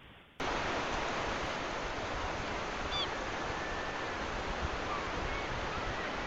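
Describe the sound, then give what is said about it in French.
Sea surf at Pointe du Raz in Brittany breaks in as a sudden, dense roar. It then holds steady and loud as a continuous wash of noise, with little rise or fall. “Ah, l'air de la mer. C'est la Bretagne, en fait, que tu nous as mis sans doute. Alors là, on est à la pointe du Raz.”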